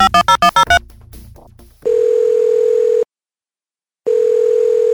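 A smartwatch call tone as one person calls the others: a steady mid-pitched electronic tone holds for just over a second, stops for about a second, then starts again and runs to the end. Brief tonal chimes come before it.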